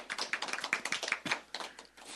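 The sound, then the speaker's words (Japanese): A church audience claps together after a prayer, producing many quick, sharp hand claps in an uneven, fairly quiet stream. “イエス様に拍手をしましょう。”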